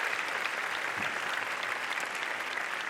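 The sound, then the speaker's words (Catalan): Steady audience applause during a town festival proclamation speech: a dense, even wash of clapping that runs the whole way through at a constant level, with no voices. “Us volia també demanar un aplaudiment per l'Enric Lluc, que és el responsable de la llengua de signes i que ajuda també a arribar al pregó a les persones que no el poden sentir.”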